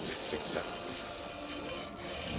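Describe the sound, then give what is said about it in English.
A drill cutting into the pod of a charred TIE fighter wreck makes a steady, harsh rasping grind that runs continuously at a fairly low level, with no voices. “It approaches a bald-headed man wearing goggles who stands up on a stack of crates using a drill to cut into the pod of a charred TIE fighter.”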